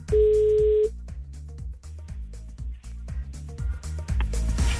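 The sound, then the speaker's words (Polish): A telephone number being dialed for a call: a steady dial tone opens, then a few short beeps follow over a rhythmic musical backing. “Pora do kogoś z Was zadzwonić.”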